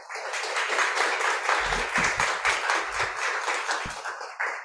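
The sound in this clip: An audience at an American Writers Museum evening applauds to welcome two authors, a novelist and a journalist, with steady, fairly loud clapping that runs the full length without pause.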